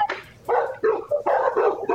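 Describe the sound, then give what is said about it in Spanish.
Small dogs barking in a rapid series of sharp, bright yaps, one short burst followed by several longer volleys with brief gaps between them. The barks are loud and sound agitated. “Y los perritos ahí tratando de ayudar.”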